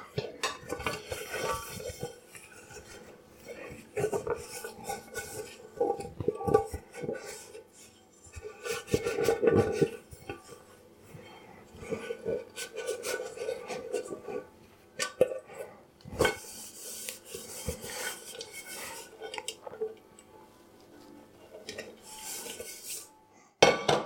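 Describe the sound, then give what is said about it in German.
A pot being dried with a dish towel gives soft rubbing with scattered clinks and clatter of dishes and cutlery, coming in irregular bursts throughout, with no talk. “Und den Topf trockne ich auch noch ab.”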